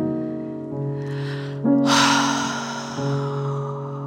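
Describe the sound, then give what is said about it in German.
A deep inhalation during a guided breathing meditation, heard as soft, breathy rushing air over steady, sustained tonal music that holds beneath it throughout. “Jetzt nimm einmal einen ganz tiefen Atemzug ein.”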